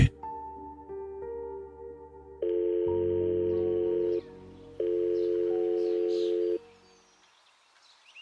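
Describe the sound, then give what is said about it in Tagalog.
Telephone tones on a cellphone call: a run of short, stepped dialing beeps, then two long, steady ringing tones with a brief gap between them. The line falls quiet afterward. “Gamit ang cellphone, Agad kong tinawagan si Mr. Miranda nang makaalis ang delivery boy.”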